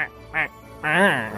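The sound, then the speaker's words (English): A flock of penguins at the South Pole calling: a few nasal, honking cries in short bursts, the last one longer and wavering in pitch. “And yes, you're right, over there, there's a whole flock of penguins.”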